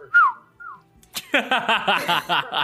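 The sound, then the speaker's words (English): A person whistles a name as two short notes that slide down in pitch, then bursts into rhythmic, pulsing laughter. “I'm going to whistle my name now, okay?”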